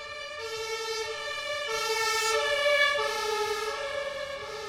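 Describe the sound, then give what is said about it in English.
Siren of a passing emergency vehicle, a steady, rich, harmonic wail that swells in loudness toward the middle and then eases off slightly, with a low traffic rumble underneath. “Now that sounds complicated, and it is. But here's what the Doppler effect sounds like.”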